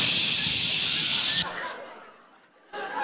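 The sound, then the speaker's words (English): Bactine antiseptic sprays in a loud, steady aerosol hiss for over a second, then stops; after a short quiet gap, a second burst of spray starts. “Remember going home, your mom would spray Bactine all over your body?”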